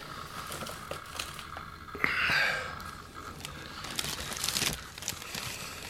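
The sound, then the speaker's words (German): Quiet rustling and crinkling of a bag full of paper and rubbish collected near a body as it is rummaged through, coming in soft intermittent bursts with a brief tearing crackle, no talking. “Ach, der Techniker hat den Beutel vergessen. Es ist so Papier und Abfall, den er in der Umgebung von Andersons Leiche gefunden hat. Zeig mal.”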